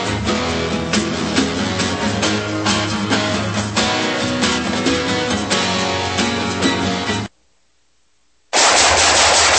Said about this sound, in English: Nice shooting.